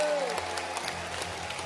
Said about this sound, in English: Applaudissez pour Jésus.